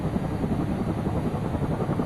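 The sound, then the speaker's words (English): A helicopter flies close overhead during an attack with shooting and bombing. Its loud, steady, low rotor and engine roar fills the whole stretch without a break. “Here we are again, the choppers very close this time.”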